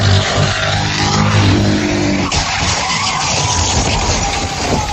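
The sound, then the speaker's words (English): Tires skid loudly in a car crash during a police chase, as a fleeing suspect rams two cars and flips one. A dense, sustained roar of tire and engine noise fills the whole clip with little change in level. “Video shows a horrific crash as the suspect rammed two cars and flipped one of them, injuring an officer.”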